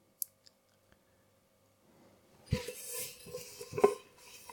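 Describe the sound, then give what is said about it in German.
A large cooking pot being handled while drying dishes: a few faint isolated clicks, then quiet clattering, rubbing and knocking of metal with a couple of sharper clanks, all at low volume. “So, jetzt habe ich hier den großen Topf zum Abtrocknen.”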